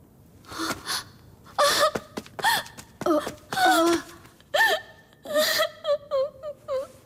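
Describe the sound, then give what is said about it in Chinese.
A woman cries in a costume drama scene, breaking into many short sobbing bursts with gasps, wavering whimpers and moans, fairly loud with brief pauses between them. “你为何啼哭啊？”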